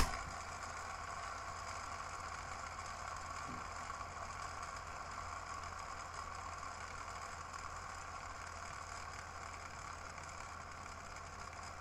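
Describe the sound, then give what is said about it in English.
A mouse scroll wheel spins freely with its hyperscrolling gears disengaged, giving a faint, steady mechanical whirr that holds evenly for the whole stretch without clear clicks or breaks. “with one spin, we will probably navigate War and Peace in one go, or something like that, because the hyperscrolling gears disengage and the wheel goes.”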